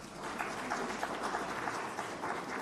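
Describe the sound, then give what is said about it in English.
A round of applause fills a hall after praise for government efforts, fairly faint but dense and steady, with many hands clapping evenly throughout. “Give a round of applause for the efforts of the government.”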